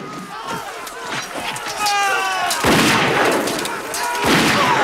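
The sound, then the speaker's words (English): Musket gunshots crack through a Civil War battle between Union and Confederate soldiers. Two loud, sharp blasts ring out amid shouting voices and battle cries. “Just in time, he fires off a round and shoots the charging Confederate.”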